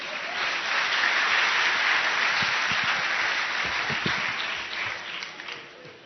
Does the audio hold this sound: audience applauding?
yes